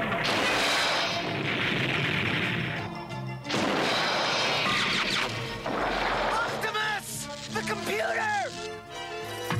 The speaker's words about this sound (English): watch out! That's a heat-seeking missile!